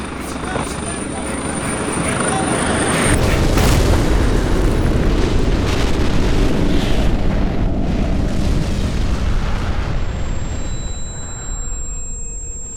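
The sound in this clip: Bombing explosions rumble beneath a roaring aircraft, the noise swelling after a few seconds into a dense, continuous wall of low booms and engine roar that slowly eases toward the end.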